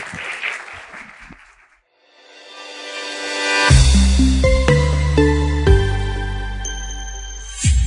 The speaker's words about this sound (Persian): به افتخار خودتون یه دست بذاریم.